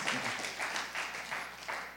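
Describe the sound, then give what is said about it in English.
Faint audience clapping during a Christian sermon comes in soft, swelling waves of applause over a low steady hum. “Clap for God. Clap for God.”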